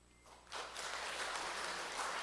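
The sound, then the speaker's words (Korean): Applause in a church as a pastor comes forward to greet children: after a brief quiet lull, a dense, steady burst of clapping starts abruptly and holds at an even, fairly soft level. “목사님께서 앞으로 나오셔서 일일이 아이들과 함께 사장을 나눌 때 큰 박수로 환영했으면 좋겠습니다”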